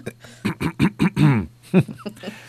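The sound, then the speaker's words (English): Someone with a lingering cold clears their throat rhythmically, making a quick run of short, voiced rasps in a steady beat, with one longer, drawn-out rasp partway through and a few more after a pause. “Rhythmic throat clearing. There's a lot of that going on.”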